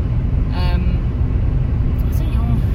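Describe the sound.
A commemorative van celebrating VE Day drives by with a steady, loud low rumble throughout, marked by a few brief higher tonal bits and faint voices over the road noise.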